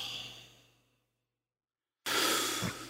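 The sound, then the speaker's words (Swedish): Deep breathing: a long, airy breath fades away over about a second, then there is a moment of near silence. Another loud, hissing breath starts abruptly and holds strongly to the end. “det här är djup andetag.”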